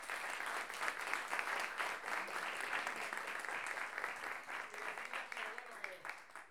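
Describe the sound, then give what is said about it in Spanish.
Audience applause at a masterclass fills the whole stretch, a dense, steady patter of many hands clapping at an even loudness, easing slightly near the end. “recibirnos, prestarnos la casa y permitir que esta clase suceda, así que un aplauso para ellos.”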